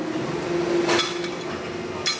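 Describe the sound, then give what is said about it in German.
Sharp knocks on a plastic part reinforced with 30% glass fibre give a glassy, clinking ring. Two distinct strikes sound over steady background noise, the first leaving a brief sustained tone. “hört man richtig den glasigen Sound, als würde ich ein Glas irgendwo anschlagen. Weil hier 30% von diesem Teil sind Glas.”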